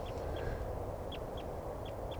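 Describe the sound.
A male bird calls in short, high notes that come in spaced pairs, soft over a steady background hiss.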